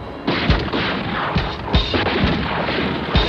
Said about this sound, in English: Now I suggest you get your head down. They're about to fire again.